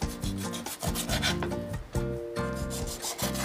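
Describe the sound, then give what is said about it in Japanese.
A knife cuts salmon fillets into pieces for a salmon cream soup with bread, making many rhythmic scraping, sawing strokes in a steady pattern. “そして鮭は2切れを4等分に切ります”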